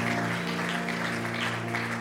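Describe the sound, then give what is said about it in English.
A church audience claps in praise, with soft, even clapping layered over sustained musical tones that hold steady throughout. “And one more time, give him a hand clap of praise in this place.”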